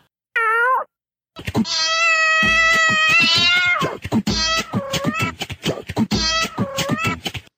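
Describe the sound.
Several loud cat meows with no talk: a short cry first, then a long drawn-out wailing meow and two shorter meows, with a few soft thumps in between.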